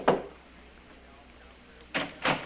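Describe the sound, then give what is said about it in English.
Knocking at a door: a single muffled knock, a quiet pause, then two more knocks close together, all fairly faint. “Then there was a knock at the door.”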